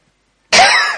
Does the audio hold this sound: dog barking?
no